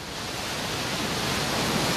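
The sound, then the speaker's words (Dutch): Rushing water from an artificial wave surf pool built in a canal beside the market hall in Rotterdam, heard as an even, steady hiss of surf with no distinct individual crashes and no voices. “Want dan denk je aan zand, zon, de branding. Maar zo klinkt het vanaf nu ook in Hartje Rotterdam. Daar is in de gracht naast de markthal een kunstmatige golfsurfbaan aangelegd.”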